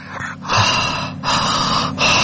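Heavy panting from someone out of breath after running, a few loud, rough gasping breaths in a steady rhythm, each separated by a brief dip.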